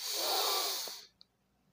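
An inhale during a breathing exercise: a soft, airy rush lasting about a second that stops abruptly, followed by one tiny click in the quiet.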